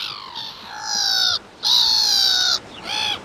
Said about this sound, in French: un autre oiseau qui, contrairement à ce qu'on pourrait penser, n'est pas marin, lui, la mouette rieuse. Mouette, c'est à vous.